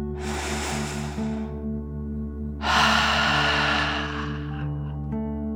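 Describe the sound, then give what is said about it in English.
Deep breathing during a relaxation exercise, in through the nose and out through the mouth: two long, loud, airy breaths with a pause between them over a steady low tonal hum. “Remember to breathe in through your nose and breathe out through your mouth. Okay, breathe deeply in and out.”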